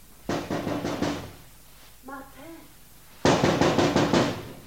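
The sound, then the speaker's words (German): Knocking on a house window late on a pitch-dark evening comes in two bursts of quick, sharp raps. A faint voice-like sound falls between the bursts. “Sie klopfte ans Fenster.”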